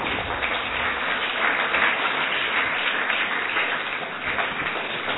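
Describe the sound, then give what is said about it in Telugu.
Children clapping in applause at a camp gathering: a dense, steady wash of many hands that holds at an even level for the whole stretch, with no talking. “Claps to all of you.”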